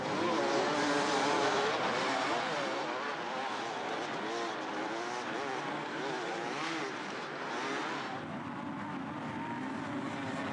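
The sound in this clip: Dirt bikes racing at the Erzberg Rodeo hard enduro event give a loud, continuous engine roar, with several motors revving and whining in overlapping pitch swings throughout.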